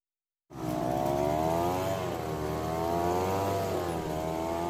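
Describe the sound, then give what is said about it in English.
A gas-powered leaf blower starts abruptly after a moment of silence and settles into a loud, steady engine drone whose pitch wavers slightly. “Ah, there it is. The sound of fall for many people. As soon as those autumn trees start dropping their leaves, the blowers come out in full force. And that noise, particularly from gas-powered machines, is almost deafening.”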